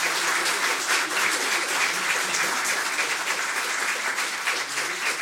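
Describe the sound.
Canned applause from a fake studio audience, thick and continuous with no breaks, staying at a steady, fairly loud level from start to finish.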